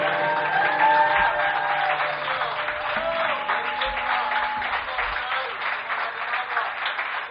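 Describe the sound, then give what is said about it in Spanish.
Loud, sustained applause closes a program, a thick and steady roar of many hands clapping that runs unbroken for several seconds, dull in tone with faint low sounds underneath. “Y despedimos el programa aquí con este aplauso que recorre el mar, que recorre la península, que recorre Europa y que sea ruidoso como tiene que ser”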